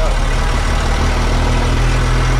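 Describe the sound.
A vehicle's engine and road noise while driving through a residential neighbourhood with small farmhouses: a steady, broad, low rumble with a constant hiss that never rises or drops.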